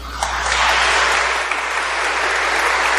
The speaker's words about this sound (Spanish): Ahora estos 8 hermanos que están aquí, un aplauso para ellos